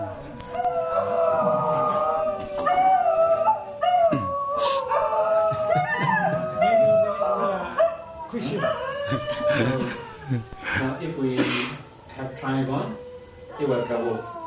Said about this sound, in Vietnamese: Chó sủa quá.